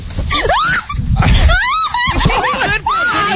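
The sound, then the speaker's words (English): A woman screams in a series of loud, high, wavering cries whose pitch sweeps up and down, broken by short pauses and mixed with other shrill vocal sounds. “Go to her, Yaki. Make her scream.”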